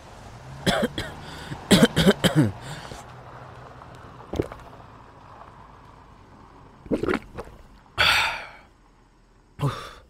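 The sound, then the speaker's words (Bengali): A smoker breaks into a persistent coughing fit: clusters of harsh, hacking coughs come in bursts separated by pauses, with a long ragged breath near the end followed by one more cough. “কিন্তু হঠাৎ আবার সে বিশ্রী কাশিটা শুরু হলো। খুকখুক করে একটানা কাশিটা হতেই থাকে।”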